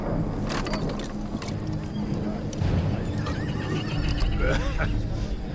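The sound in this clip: Horses of two waiting horsemen on a plateau neigh and whinny over steady clip-clop of hooves, a dense, loud stir of animal sounds that continues without pause.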